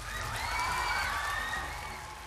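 An audience in a concert hall at a children's culture festival applauds in a dense, steady wash of clapping with faint whoops and cheers mixed in, holding loud throughout and easing slightly at the end.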